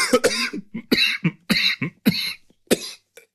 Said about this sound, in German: Entschuldigung, ich habe mich total verschluckt.